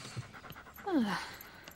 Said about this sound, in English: A man and his dog cross in front of them.